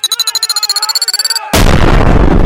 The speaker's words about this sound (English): This is the bomb going off.